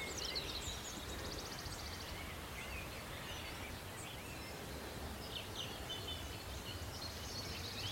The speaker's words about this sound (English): You can hear a wood warbler in the background. Just up on the fringes of the oak wood.